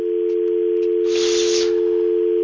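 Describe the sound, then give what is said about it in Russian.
A telephone line signal of an incoming call on a live call-in line: one steady low-mid tone held unbroken throughout, with a brief burst of hiss in the middle. “вот нам звонит второй раз человек.”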